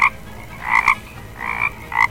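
A toad croaking: a few short, raspy croaks in small clusters, fairly loud over a quiet background, with no talking.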